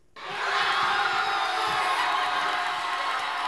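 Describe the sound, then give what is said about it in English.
A packed crowd at a Cape Verdean social club in Bridgeport roars with cheers, whoops and shouts as Cape Verde scores its first-ever World Cup goal. The noise rises abruptly and then holds as a loud, sustained wall of jubilation. “That was the sound of jubilation at the packed Cape Verdean Social Club in the Hollow section of Bridgeport as the country scored its first ever World Cup goal.”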